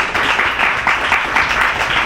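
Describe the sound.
An audience applauds a reader at a reading event, with loud, dense clapping in a pulsing, uneven rhythm for about two seconds.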